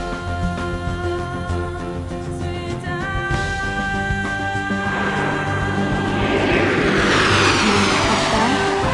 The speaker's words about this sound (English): 30 seconds to touchdown. The landing gear is down and locked.